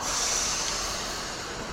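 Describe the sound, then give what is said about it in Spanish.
A Mexico City metro train arriving at a station gives a steady, loud hissing rush with a thin high whine riding on top, and no voices. “Okay, here comes our train, guys. Get ready.”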